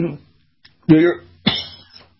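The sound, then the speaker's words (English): Coughing from someone whose morning drink went down the wrong side of the throat: two harsh, loud coughing bursts with fainter throat sounds around them. “Morning drink went down the wrong side of the throat here. So as I'm choking here with passion,”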